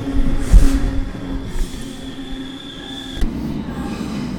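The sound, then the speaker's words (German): A train arrives on a trip to Berlin with a rumbling roll and thin metallic wheel squeals. A few short, louder clanks and bumps stand out over the steady noise. “Ist auch egal, weil jetzt kommt die Bahn.”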